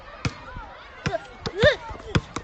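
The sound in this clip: Basketball thumps as the ball is passed and caught during play: several sharp, hollow thuds at uneven intervals, mixed with voices calling out.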